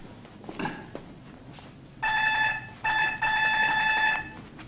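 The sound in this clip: A doorbell rings in bright, steady electronic tones, sounding in separate bursts that start a couple of seconds in. Before the ringing there are faint, scattered knocks and shuffling noises.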